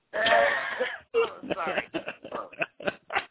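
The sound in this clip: Throat clearing from leftover phlegm after a cold: a long raspy vocal burst, then a series of shorter, choppy guttural bursts at uneven intervals.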